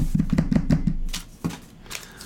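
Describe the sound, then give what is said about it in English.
A quick drum roll tapped out by hand: a rapid run of about five sharp knocks, then a short pause and one final louder hit, with faint lighter taps trailing after. “Drum roll.”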